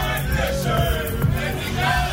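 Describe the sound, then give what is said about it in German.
A festival crowd at Parookaville cheers and shouts outside the 1 Live studio, a dense, continuous roar of many voices that stays loud throughout. “Ich weiß, wir haben auch draußen Mikros vor dem Studio. Vielleicht können wir die gerade mal dazu aufmachen.”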